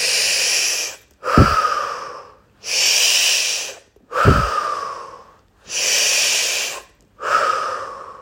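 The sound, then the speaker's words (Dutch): Slow breathing in and out through the nose: three full cycles, each a soft airy hiss followed by a rougher, throatier breath with a short low rush. The breaths are moderately loud and evenly paced, with no talking. “Adem 2 keer in via je neus. In en uit. Nog een keer in. En uit.”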